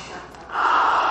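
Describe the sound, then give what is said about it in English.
A deep breath drawn in through the nose and let out slowly, heard as a soft airy rush that swells midway into a louder, steady breathy hiss, with no talk. “You better take a deep breath through my nose and let it out slowly.”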